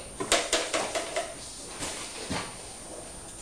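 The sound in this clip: A toy oven door being shoved tightly shut, a quick run of clattering knocks and bumps followed by a few softer, scattered thuds.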